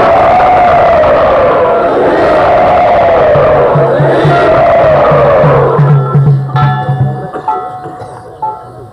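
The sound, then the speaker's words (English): A loud crowd cheers and whoops to welcome a speaker at a Vaishnava gathering. The roar is sustained and dense, then breaks up and tapers off over the last few seconds. “Everyone, let us welcome you very enthusiastically.”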